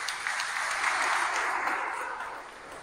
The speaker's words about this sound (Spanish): Un aplauso para ella.